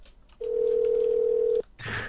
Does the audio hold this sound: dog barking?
no